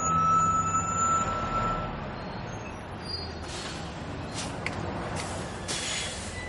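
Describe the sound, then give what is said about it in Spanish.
A city line bus pulls into a stop and drives on, its engine giving a steady broad rumble that eases after the opening, with a few short hissing bursts toward the end. “El autobús de línea se detiene en la parada y luego continúa.”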